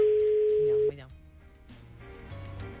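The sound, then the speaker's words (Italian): Telephone ringing tone as a live radio call is placed: one steady, even-pitched tone lasting just under a second, then cut off abruptly. Voices and other faint sounds follow. “Stiamo chiamando in diretta Gianni Simioli.”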